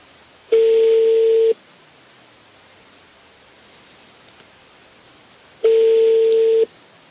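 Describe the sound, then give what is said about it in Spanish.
Two steady telephone tones of about a second each, spaced several seconds apart, sound on a line while calling around for Hyundai spare parts. They come over a faint background hiss. “estamos llamando a otro sitio a ver si conseguimos repuestos de la Hyundai”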